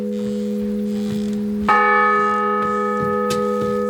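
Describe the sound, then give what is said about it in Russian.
A church bell, rung by a monk pulling its rope, hums with a sustained ringing tone. A few fresh strokes renew the clear, resonant, metallic clang over the steady drone. “бежит к колоколу, перекрестившись, берется за веревку”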